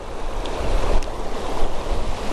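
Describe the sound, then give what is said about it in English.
A gale-force wind blows outdoors, a steady, loud roar that buffets the microphone with a deep low rumble and no real breaks. No one speaks. “I'm not going to do that because it's blowing a gale.”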